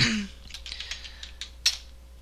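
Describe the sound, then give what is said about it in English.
Keys clack on an HJL-57 keyboard for a CoCo 2 home computer: a few sparse, fairly faint clicks at irregular intervals, one sharper than the rest, over a low steady hum. “The HJL57 keyboard. Compare it with the rest, then buy the best. It's for the Coco 2 computer,”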